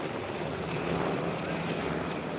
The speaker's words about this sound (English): Black Hawk helicopters whirled above the city